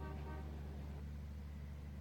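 Faint, steady low engine rumble inside a noisy, crowded bus, with a brief horn-like toot at the very start and no talk.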